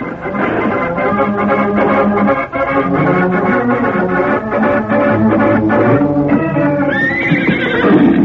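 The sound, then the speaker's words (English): A saddled horse whinnies near the end with a rising, high cry, heard over loud, continuous music that fills the whole clip. “Yeah, this horse came from Zach Morley's corral.”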